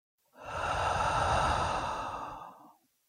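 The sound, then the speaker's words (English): One long, deep breath in a relaxation exercise, drawn in through the nose and released through the mouth as a full, airy, sigh-like exhale that swells and fades, heard alone. “Let's take a deep breath in through the nose and out through the mouth.”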